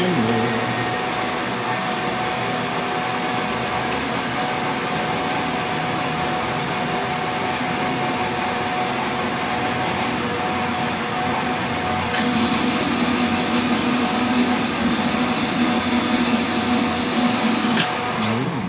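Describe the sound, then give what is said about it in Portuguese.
A blender runs with a steady, loud motorized whir that holds one even drone for the whole stretch, its tone shifting slightly partway through. “Olha, está conosco também o liquidificador, a Valita.”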